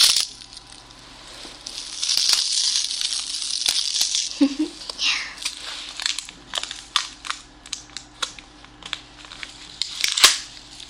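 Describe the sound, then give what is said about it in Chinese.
Something is torn open with a crinkly ripping sound, followed by many sharp clicks and crackles that vary in loudness, ending with one louder snap. “撕开哦”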